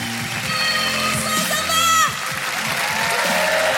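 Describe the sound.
Steady applause from a comedy show audience as the next comedian walks on stage, a continuous even wash of clapping that runs through the whole stretch with a few sustained cheering tones layered over it.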